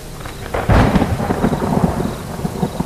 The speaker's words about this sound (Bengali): যে কালো মেঘটা ছিল সেটা এতক্ষণে ঝরে পড়তে শুরু করেছে, সেই সঙ্গে ভেসে আসছে মৃদু বাজ পড়ার শব্দ। ক্রমশ বেড়ে উঠছে বাজের দাপট।